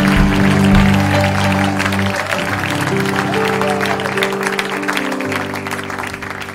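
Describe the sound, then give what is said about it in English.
Church audience clapping hands in praise during a worship service, a loud, busy clapping texture laid over sustained musical tones that shift pitch as the chords change, the clapping easing slightly toward the end. “Come on, you can do better than that. Give Jesus a hand clap of praise this morning.”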